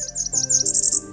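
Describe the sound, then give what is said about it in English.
A Blackburnian warbler sings a very high, thin song, a quick run of wavering notes that ends in a sustained note sliding higher still. “I am 95% certain that that's a Blackburnian warbler singing in the background.”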